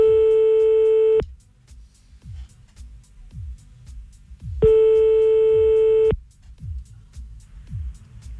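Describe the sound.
Ringback tone of a telephone call being placed again: two long, steady tones about three seconds apart, with faint low clicks in the quiet gaps.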